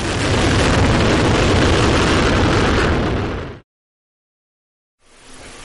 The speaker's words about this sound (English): Engine start and lift off of the Delta II rocket with SMAC, making global observations of soil moisture for climate forecasting.